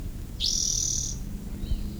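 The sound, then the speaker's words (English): A bird sings a single high, sustained whistled note lasting under a second, followed by a much fainter short note, over a low background rumble. “What was bird number two, I think, is still singing.”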